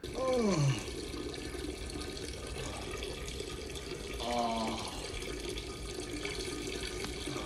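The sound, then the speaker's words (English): A person peeing, a faint steady stream of liquid trickling and splashing that runs the whole time, with brief vocal noises near the start and middle. “Boy, that was some good peeing.”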